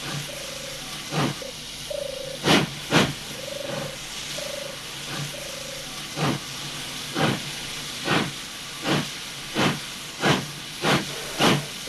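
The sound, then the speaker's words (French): A steam train pulling away from a station, with many regular chuffs of hissing steam coming at a steady, even rhythm over a continuous background hiss. “Enfin, le train s'éloigne.”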